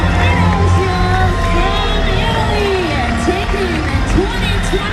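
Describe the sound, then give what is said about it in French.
Crowds shout and cheer in packed Chamonix streets during an ultra-trail race: a dense, continuous roar of voices with scattered whoops and calls rising out of the babble, loud and unbroken throughout. “Les rues dans Chamonix sont bondées, on ne peut plus circuler, ça crie de partout.”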